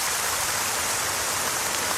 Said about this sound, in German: Regen. Sehnsüchtig erwartet beim Blick zum Beispiel in den eigenen Garten oder auch auf die vertrockneten eigenen Balkonpflanzen.